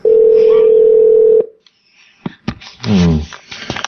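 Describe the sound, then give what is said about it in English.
A telephone being redialed: a steady, loud dial tone holds for over a second, then cuts to a few sharp clicks and brief touch-tone bursts. “I hung up on them, and I'm dialing them again.”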